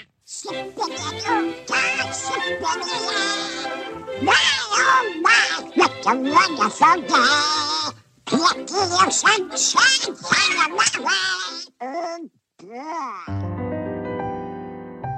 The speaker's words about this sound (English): such as having Donald Duck sing it in the short cartoon Soup's On in 1948. But Donald Duck.